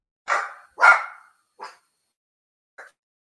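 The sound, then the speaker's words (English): Sharp barking from the speaker's dogs: four short barks, the first two loud and close together, then two fainter, more widely spaced ones, with no talk. “The fuck just barked at me? My dogs.”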